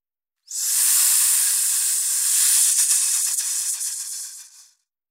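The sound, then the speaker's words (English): Steady, broad hiss of escaping air or steam that starts abruptly, holds at an even, fairly loud level for about four seconds, then tapers away, with nothing else heard. “Hiss.”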